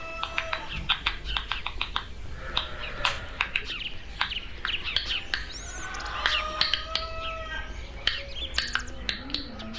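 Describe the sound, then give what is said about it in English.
Clicking sounds recorded from stressed plants: many sharp, irregular dry clicks, some in quick clusters, mixed with brief chirp-like tones throughout. “The findings suggest that the world around us is full of plant sounds, and that these sounds contain information. And hear the sound of plants.”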